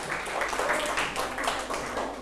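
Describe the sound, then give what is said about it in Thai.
Students in a classroom clap for a group of classmates, a brief burst of dense, scattered applause that stays fairly even in loudness and fades slightly toward the end. “ปรบมือให้กลุ่ม5หน่อยครับ”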